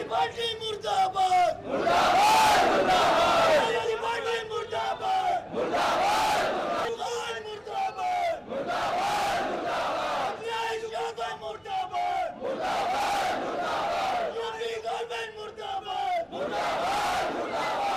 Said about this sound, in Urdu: احتجاجی جلسے میں حاضرین نے حکومت مخالف نعرے بھی بلند کیے۔